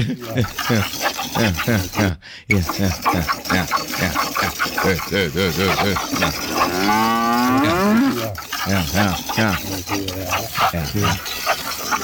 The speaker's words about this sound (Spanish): Ah, qué vaca tan tetona, hombre.